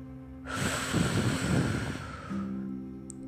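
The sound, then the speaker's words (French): A deep breath exhaled during a guided breathing exercise: one long, breathy rush of air lasting about two seconds, then fading out over a steady low background tone. “Encore une fois, inspire cette force, cette belle énergie. Bloque. Envoie le mot confiance dans ton esprit. Et souffle.”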